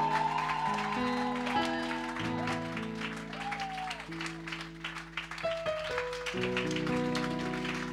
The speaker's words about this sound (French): Continue de l'acclamer. Continue de l'acclamer. Acclame Jésus.